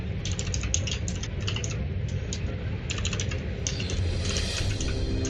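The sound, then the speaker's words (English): Typing on a computer keyboard during a tabletop role-playing game session: quick clusters of clicking keystrokes come in uneven bursts over a steady low background hum. “Let me type it out.”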